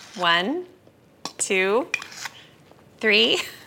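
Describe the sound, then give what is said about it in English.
A metal tablespoon clinks as baking powder is spooned into a bowl of all-purpose flour. A few brief, faint clinks fall between three louder tonal, whining sounds. “And then to the flour, I'll add 4 tablespoons of baking powder. I better count.”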